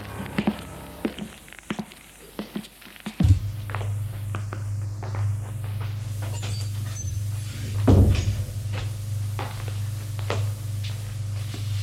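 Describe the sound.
Footsteps going up to a bedroom: many irregular thuds and scuffs of steps, with a low steady hum entering partway through and continuing beneath them.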